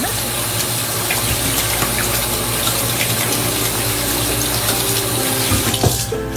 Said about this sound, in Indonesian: Cuci tangan dengan sabun dan air mengalir adalah salah satu cara paling efektif untuk menghapus kuman